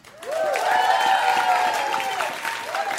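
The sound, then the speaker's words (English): A studio audience applauds and cheers as a talk show resumes. Dense, steady clapping with whoops on top fills the whole stretch. “We're back. Applaud.”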